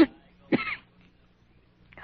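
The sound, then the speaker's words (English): A feverish, weak patient coughs a few short, harsh times, with quiet pauses between the bursts. “My cough hurts.”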